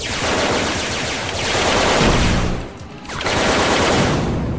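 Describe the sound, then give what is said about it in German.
Rapid laser-gun fire rings out during a video game boss fight, a dense, loud, continuous barrage of harsh noisy bursts with a brief dip midway and no talk. “Den Boss krieg ich nie nur mit der Lasergun platt.”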